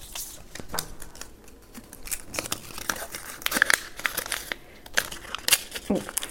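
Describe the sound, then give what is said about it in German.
A paper slip being unfolded: many dry crinkles and crackles in uneven, quick bursts, with sharper snaps of paper rising above a steady low background. “Möchtest du den letzten Zettel? Ich mache den letzten Zettel auf.”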